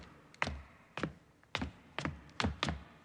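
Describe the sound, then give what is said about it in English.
Knocking on a locked door: six quiet, sharp wooden knocks at uneven intervals, the last two closer together. “He knocks.”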